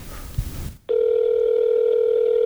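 An outgoing telephone call rings: after a brief burst of muffled noise, a steady, loud electronic ringing tone starts and holds without a break to the end.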